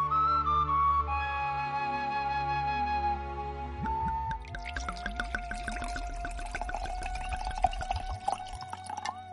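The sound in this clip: Wine pours in a gurgling, splashing stream, with many quick liquid ticks and drips. It follows a steadier tonal stretch and stays fairly soft throughout, with no one talking.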